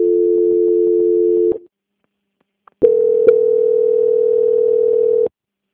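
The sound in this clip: A telephone call-transfer tone plays as two long, steady, loud tones of the same pitch, separated by a short silence. The second tone runs longer and starts with a faint click.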